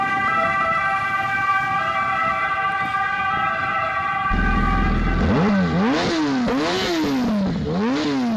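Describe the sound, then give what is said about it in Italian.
A loud siren, presented at about 100 decibels, wails in repeated rising and falling sweeps through the second half, following a steady, droning multi-tone hum. No voices are heard. “Sirena 100 decibel.”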